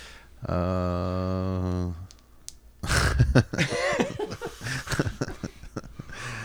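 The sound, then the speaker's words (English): Someone takes a big hit of weed: a sustained, tonal, bubbling draw of about one and a half seconds, then a short pause and a burst of harsh coughing and throat clearing. “As he takes a nice big rip of fucking weed, as I'm sure most people in the ether are at the moment.”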